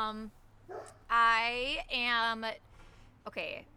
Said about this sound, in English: Talk about your shirts while I get my dogs to stop barking.